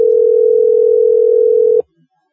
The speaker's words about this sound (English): It's dialing. See if he picks up.